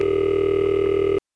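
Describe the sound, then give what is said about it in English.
A later-model Bell System ring machine for full-sized central offices gives a steady, buzzy ring signal. It holds one pitch with strong harmonics for just over a second, then cuts off abruptly into silence. “Anyway, that covers the Bell System ring machines for full-sized central offices.”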